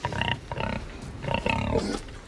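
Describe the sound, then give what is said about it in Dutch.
Pigs on a farm in De Heurne, Gelderland, known as sun pigs, giving a few loud squealing grunts in close succession with hardly any pause between them. “Zonvarkens heten ze dus, de dieren van August Offenberg in het Gelderse De Heurne.”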